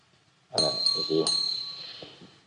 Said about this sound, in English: So usually they sound the bell,